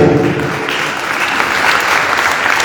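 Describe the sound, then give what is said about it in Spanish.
Audience applause for the panelists at a panel discussion: dense, steady clapping that stays loud and even from start to finish, with no break and no voices over it. “antes démosles un fuerte aplauso porque están dando”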